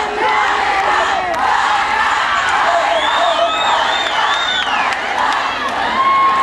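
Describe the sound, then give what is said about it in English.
Loud crowd cheering and shouting together as a group, a sustained roar of many voices with high whoops that rise and fall over the top. “You think just because you cheer as a group I'm going to do it?”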